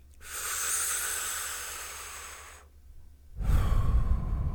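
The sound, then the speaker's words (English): Slow, deep breathing in a heart-focused meditation: one long, airy, hissing breath, then a short pause and another heavier breath with a low rumble, with no talking. “So just keep focusing on those inhales, focusing on those exhales, and we're going to do this for a couple more minutes here.”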